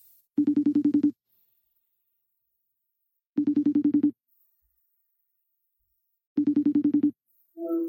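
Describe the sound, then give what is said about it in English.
An outgoing phone call rings: three buzzing ring tones, each a short pulsed burst, evenly spaced with silence between, and a voice briefly answers at the very end. “I'll dial them up right now.”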